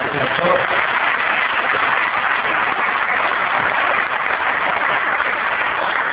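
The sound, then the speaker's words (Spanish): Applause from an audience of fellow believers, a continuous dense patter of clapping that stays steady and loud throughout, with a dull, muffled tone. “También nos están dando un gran aplauso a ellos.”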